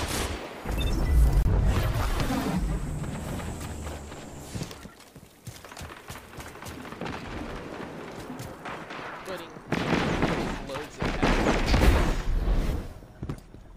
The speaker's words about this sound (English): Put a bullet in him. Some bullets on him.